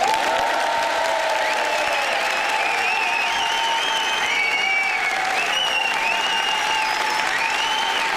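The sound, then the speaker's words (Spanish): A huge comedy hall audience applauds in dense, unbroken clapping, a steady crackle of many hands that holds an even loudness throughout. “Estamos en la sala de comedia con 155.000 personas que suenan así.”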